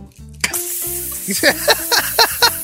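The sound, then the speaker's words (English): Food sizzling in a hot pan gives a steady bright hiss, punctuated by a few louder spitting bursts in the second half, with a tonal hum running underneath. “the start of every meal is a hot pan.”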